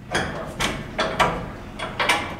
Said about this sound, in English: opens the door to his commercial fishing vessel